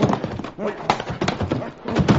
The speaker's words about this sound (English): here come the army wagons now. Army wagons? Oh, Billy Blue Blazes, Chad, he's right. See, down there, 3 U.S. Army wagons.